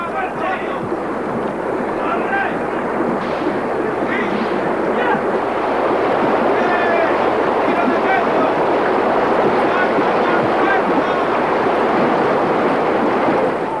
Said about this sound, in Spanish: La caravana atraviesa un río de corriente impetuosa. Primero pasaron los caballos y desde la otra orilla, con larguísimas riendas, tiran de los carros que, montados sobre balsas, cruzan flotando la corriente.